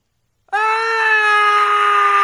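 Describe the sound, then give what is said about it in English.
A group of men screaming together: one loud, sustained scream bursts in suddenly and holds a steady pitch for nearly two seconds without a break. No talking. “Like 30 guys walk into the room, start screaming, and then they just leave him.”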